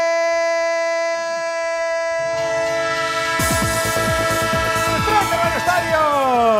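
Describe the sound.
A train effect in a sports radio jingle: a sustained multi-tone train horn chord thickens partway through, then rhythmic chugging clatter joins, with pitch glides sliding downward near the end.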